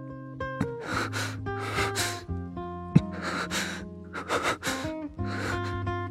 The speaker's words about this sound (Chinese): 如果仔细听，你会发现那喘息声只是男人的。